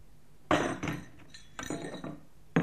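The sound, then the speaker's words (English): Dishes, glasses and cutlery clinking as a table is laid for a surprise breakfast, a few bright, sharp chinks separated by short gaps, faint and alone. “You lay the table and I'll grind the coffee.”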